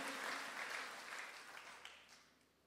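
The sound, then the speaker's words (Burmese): Congregation clapping hands in praise during a church service: faint, dense applause that starts steady and gradually fades away. “လက်ခုပ်တီးလက်ပြန်လဲချီးမွမ်းဘုရားကိုဂုဏ်ပြုကြရအောင်”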